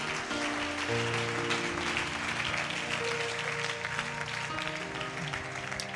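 A church audience applauds in praise, with a continuous, fairly faint wash of clapping over sustained musical tones.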